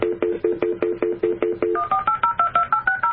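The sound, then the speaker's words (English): Phone dialing tones ring out as a quick, steady run of many short, clean beeps. A lower-pitched group comes first, then a higher-pitched group, with no voices. “Oh, that sounded. That's my phone trying to dial him.”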